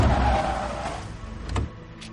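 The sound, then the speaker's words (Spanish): Cars braking to a stop around a man: a low engine rumble that eases off, then a couple of brief, faint squeals as the vehicles halt. “Tres coches frenan a la altura de Mandela.”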